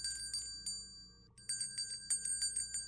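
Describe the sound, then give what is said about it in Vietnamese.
A small hand bell rung at a family altar, in three rounds of quick, bright, clear strikes separated by short pauses, alone with no voices. “rồi lấy một chiếc chuông nhỏ đã chuẩn bị sẵn mà rung lên 3 hồi.”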